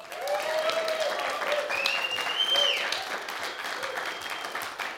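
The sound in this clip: An audience applauds to welcome a performer onto the stage: thick, continuous clapping stays fairly loud throughout, easing a little toward the end.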